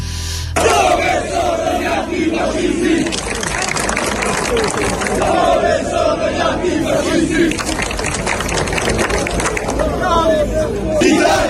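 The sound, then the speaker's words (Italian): A crowd in Florence chants slogans to welcome general Vannacci, many voices shouting in loud, rhythmic unison with continuous crowd noise throughout. “E sentite come viene accolto Vannacci a Firenze: un generale, c'è solo un generale, Italia, nazione, remigrazione. Sentite, sentite.”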